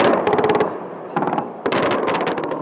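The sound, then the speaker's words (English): Explosions and rapid crackling blasts sound during the bombing of Baghdad in March 2003: three loud clusters of fast, sharp cracks, the last and longest fading gradually, separated by short quieter gaps. “On March 20th, 2003, bombs fell on Baghdad.”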